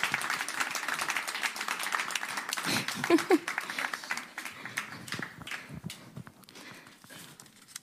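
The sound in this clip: An audience claps as a performer comes on stage, opening as a dense, loud patter that thins into scattered, sharper claps and grows quieter over about eight seconds.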